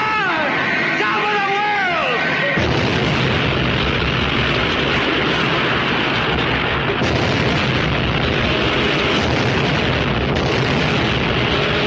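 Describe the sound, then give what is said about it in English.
An explosion sound effect for a radio drama, a whole place blowing up in a chain reaction. It is a loud, dense roaring rumble sustained for many seconds, following a brief voice at the start. “And then this whole place will blow.”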